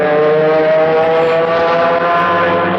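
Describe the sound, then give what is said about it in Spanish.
Loud, continuous engine roar of two race cars speeding on a track, a steady high-pitched harmonic whine with no break. “¡Hunde todo el acelerador! ¡Ay! Son dos bólidos lanzados en una pista.”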